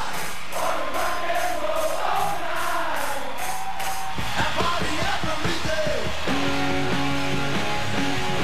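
Concert crowd cheers, whistles and applause, spliced from live shows, are overdubbed onto a rock track: a loud, continuous crowd roar with yells throughout, with the music's tones joining in the second half.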